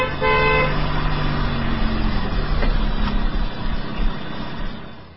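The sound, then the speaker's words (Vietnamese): A car horn honks briefly as a car pulls into a yard, followed by a steady, loud engine rumble that fades slightly at the end. “Cách một lát, có một chiếc xe hơi từ phía Sài Gòn chạy lên bóp kèn, rồi quẹo vô sân nữa.”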